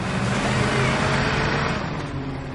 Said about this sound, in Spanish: Circulan por la carretera que cruza la marisma.